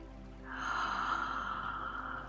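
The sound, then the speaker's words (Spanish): A single slow, deep inhalation during a guided breathing meditation, soft and airy, rising gently and holding for about two seconds at low volume, with no talking. “Y vamos a respirar muy profundo.”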